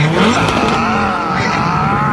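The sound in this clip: A Ferrari sports car engine drones loudly and without a break, its tone wavering up and down as it runs.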